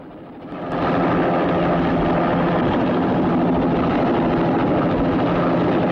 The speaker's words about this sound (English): She carries on waving as the helicopter heads up into the sky, casting a shadow on top of the Pan Am building.